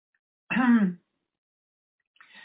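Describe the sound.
Throat clearing from a dry throat: one short, voiced, rasping burst, followed after a pause by a fainter, breathy second rasp.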